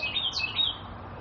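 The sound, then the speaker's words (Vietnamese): A bird sings loudly in a few quick, high, bright chirping notes in the first half. The song then trails off into quiet background hiss, with no talk. “Thôi con, đừng hót nữa con, để tôi nói chuyện con. Hót lớn quá. Chim.”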